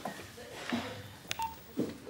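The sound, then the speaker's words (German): Faint telephone dialing beeps from someone placing a call, a few short, separate tones over a quiet, hissy background. “Klingelt, aber es geht niemand ran.”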